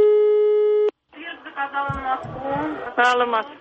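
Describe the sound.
A steady telephone line tone sounds after dialing a railway information number, holding one flat pitch for just under a second before cutting off, followed by people talking on the line.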